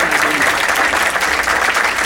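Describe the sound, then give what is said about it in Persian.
An audience claps: a dense, steady wash of many hands applauding together. The sound holds at an even, loud level from start to end without breaks. “قشنگ دست بزن اگه میزن.”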